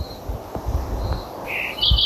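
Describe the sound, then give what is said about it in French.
Night birds and insects call on a summer night in southern France. Brief high chirps stand out near the end over a soft, low, rustling background. “on replonge au cœur de la nuit où dans l'obscurité s'agite toute une faune, toute une flore, ces oiseaux, ces insectes, ces plantes qui ne dorment jamais ou presque”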